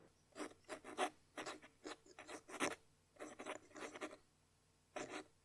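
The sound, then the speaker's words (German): Pen scratching on paper, a quiet run of many short rasping strokes in an irregular rhythm, some clustered close together, with brief pauses between groups. “Stift auf Papier. Kratzt.”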